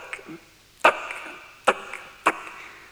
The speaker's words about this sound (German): Ah, tack, ah, tack. Sie schlagen mir den Kopf ab.